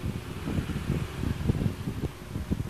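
A child blows hard into something, making many irregular, gusty puffs of low, breathy rumble. They come in quick, uneven succession at a fairly faint level.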